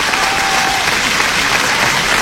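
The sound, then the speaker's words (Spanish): Audience applause for karaoke singers, a loud, even, continuous wash of many hands clapping from start to finish. “Aplausos para los que cantaron.”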